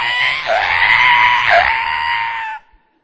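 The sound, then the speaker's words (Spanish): A human voice imitates a pig squealing: one loud, strained, high-pitched squeal lasting over two seconds with two brief dips in pitch, then it cuts off sharply. “Usted agarra un puerco y es un chillar.”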